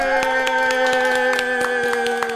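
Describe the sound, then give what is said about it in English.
A show audience applauds as a woman is invited up, with many quick, scattered claps over a steady sustained tone. “Let's everybody give a big hand for Babette here.”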